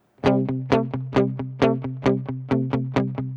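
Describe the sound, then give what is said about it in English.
Electric guitar power chords in the classic rock-and-roll pattern, a fifth alternating with a sixth on top, played as a steady run of many evenly spaced strummed chords, loud and rhythmic with no voices. “playing a power chord on the guitar and then playing a 6 on top of the 5, which sounds like this.”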